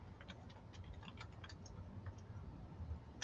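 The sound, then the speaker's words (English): Typing on a computer keyboard gives faint, irregular runs of light clicks. Some keystrokes come in quick bursts and others are spaced out, all over a low background hum. “Sorry, I type as fast as I can. Hopefully I spelled everything right.”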